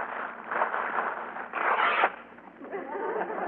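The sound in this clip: Birthday present wrapping paper is torn open in crinkling, rustling bursts. The sound is fairly faint, with one louder, longer tearing rip in the middle before it settles back into softer crumpling.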